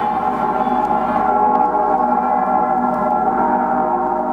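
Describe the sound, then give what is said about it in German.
The bells of Cologne Cathedral ringing together in a dense, sustained peal. Overlapping tones blend into a loud, steady wash of sound with no speech. “Die Glocken des Kölner Doms, deren Stimmen über den Reliquien der heiligen drei Könige erklingen.”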